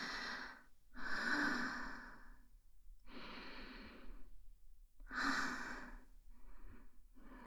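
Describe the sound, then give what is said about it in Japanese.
Deep breathing by a nervous person trying to calm down at an outdoor hot spring: several slow, airy breaths in long bursts with short pauses between, soft and quiet with no talk. “深呼吸。”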